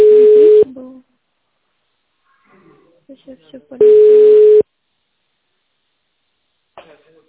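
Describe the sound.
Telephone ringback tone while a caller waits to be connected to a company's contract department: two long, steady mid-pitched beeps separated by a pause of about three seconds, with faint scattered clicks and murmurs in the gap and a brief soft sound at the end.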